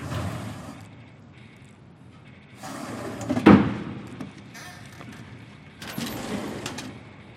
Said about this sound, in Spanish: Regresa al escritorio y abre un cajón que contiene tres clips y una liga.